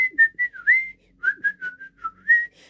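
A person whistles the violin melody of a pop song as a quick run of bright, clear notes. The pitch bobs up and down across two short phrases separated by a brief pause.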